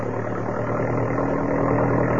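Jeep engine driving along a road gives a steady, mid-to-low droning hum with light rumble. The sound keeps an even level throughout, and no voices are heard.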